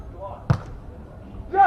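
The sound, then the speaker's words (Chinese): One sharp, heavy slap of a powerful jump serve striking the ball in a volleyball match, a single brief hit set between stretches of a voice talking. “大力的跳发，好发球”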